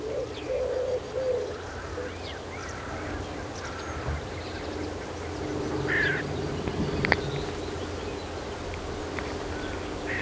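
A common redstart sings short, faint, high phrases, recorded with microphones placed right beneath it. Low cooing and scattered chirps from other birds continue across a steady outdoor background.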